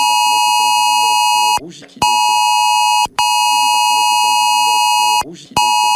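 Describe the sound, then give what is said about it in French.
Shrill emergency alert tone from a mobile phone, a piercing steady beep rich in harmonics, sounding in long bursts broken by short pauses, with a voice talking beneath it and in the gaps. “Quand vous recevez ce message-là, vous n'avez pas la sonnerie de votre texto habituel. Vous recevrez ce son un peu strident qui est volontaire afin que vraiment vous puissiez lire le message.”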